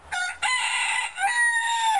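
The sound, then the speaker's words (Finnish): A rooster crows in one long, loud, harmonic call that fills the whole moment, its tone wavering briefly before carrying on strongly to the end. “Ja siinä samassa kukko laulaa.”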